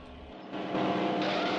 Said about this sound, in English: Ben and Elaine set off in his car.